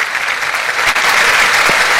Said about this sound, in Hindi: बहुत शुक्रिया कि तालियों के गूंज में हम आपको अलविदा करते हैं।